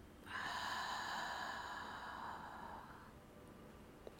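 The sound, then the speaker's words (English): A cleansing breath drawn in through the nose and let out through the mouth, heard as a single long, soft, airy rush of about three seconds that fades, followed by quiet. “We're going to take one more cleansing breath. Inhale through your nose. And exhale through your mouth.”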